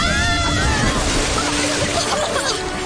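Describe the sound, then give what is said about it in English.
Crashing ocean wave with sloshing water, a radio drama sound effect: a loud, continuous rushing roar fills the whole stretch, with voices briefly audible over it near the start. “Watch out. Here comes another wave.”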